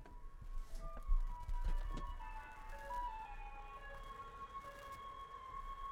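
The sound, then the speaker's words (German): An ice cream van's jingle as the van comes along the street: a faint, chiming melodic tune over a low engine and road rumble, with no voices. “Warte, fuck, der Eismann kommt gerade. Kann man das hören?”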